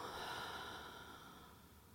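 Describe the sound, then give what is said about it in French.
A deep breath drawn in through the nose and let out through the mouth: a soft, steady, airy hiss heard alone that slowly fades. “prenez une profonde inspiration par le nez en gonflant le ventre et la poitrine et soufflez par la bouche en relâchant”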